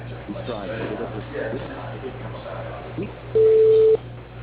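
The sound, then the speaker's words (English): A steady electronic tone lasting under a second sounds on a phone line as a call is transferred to voicemail, coming after talk over a low, constant hum. “I wasn't able to reach him at his desk. Can I transfer you to his voicemail? Oh, of course you can. That's fine. Thank you. All right. I will transfer you.”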